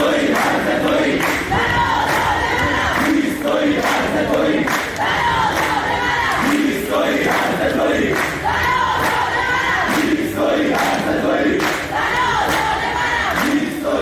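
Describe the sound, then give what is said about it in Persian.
Students chant at a protest at Babol Noshirvani University, a loud, dense mass of voices shouting together in a continuous, rhythmic surge throughout. “بله، صدای دانشجویان در دانشگاه نوشیروانی بابل بود.”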